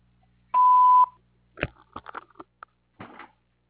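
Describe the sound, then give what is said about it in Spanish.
A voicemail beep sounds once: a pure, steady, mid-pitched tone lasting about half a second, followed by a few soft clicks and rustles. “Por favor, deja tu mensaje después del tono.”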